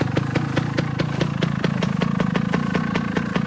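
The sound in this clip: A small motorcycle engine runs with a rapid, even ticking beat over a low mechanical hum, the rhythm staying steady and fairly loud throughout, with no talk.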